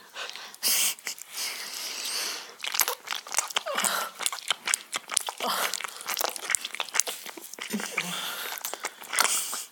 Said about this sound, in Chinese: 那你还吃？ 饥不择食吗？